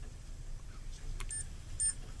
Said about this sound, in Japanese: これ、今ね、こうやってピッピッって言ってますよね。これが、点滅してます